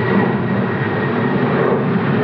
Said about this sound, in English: So kind of on that note, too, with let this plane go by.